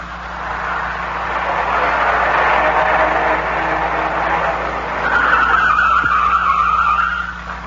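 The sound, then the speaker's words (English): Car tires skid and squeal as the car circles wildly and the driver pulls over beside an incline. A loud, continuous rush of friction noise fills the whole clip, with a sharper high squeal rising near the end. “I grabbed the wheel in the nick of time. I almost dropped off an incline. I pulled to the side and shut the motor.”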